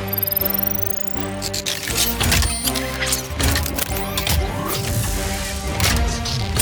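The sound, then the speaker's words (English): Mechanical clanking and whooshing of a police car transforming into a police truck: many rapid metallic clicks, thuds and sweeping tones, loud and busy throughout. “Initiating Super Police Truck transformation.”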